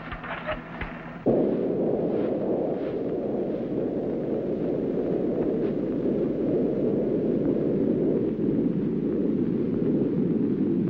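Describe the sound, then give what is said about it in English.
A spaceship's main rockets fire: after a brief quieter opening, a sudden loud roar kicks in and holds as a dense, steady, low rumbling blast to the end. “Main rockets up full.”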